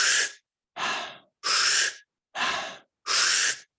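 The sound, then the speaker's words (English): A person demonstrates fast, stimulating breathing, with five loud, forceful, breathy breaths evenly spaced in a quick, regular rhythm and short silences between them. “So if we're breathing like this,”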